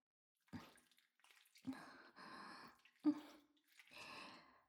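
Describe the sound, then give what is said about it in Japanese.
Feet are washed with water, giving a few soft splashing and sloshing bursts. The sounds are faint and separated by quiet pauses. “まだ足は洗ってるところですから。”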